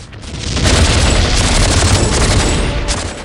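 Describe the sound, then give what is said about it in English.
A battle explosion blows guards out of a gun emplacement in a film, a continuous loud roar of blasts and rapid gunfire that swells and holds throughout. “Some guards are blown out of a gun emplacement.”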